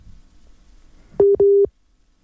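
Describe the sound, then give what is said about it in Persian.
Busy tone after a dropped phone call: two loud, short beeps at a steady mid pitch, the second slightly longer, following a stretch of faint low background noise, then silence. “متاسفانه که تماس را از دست دادیم با بانو توانا.”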